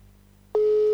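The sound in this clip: A telephone call rings on speakerphone. After a faint low hum, a steady single-pitched electronic ringing tone starts abruptly about halfway through and holds loud and unbroken to the end.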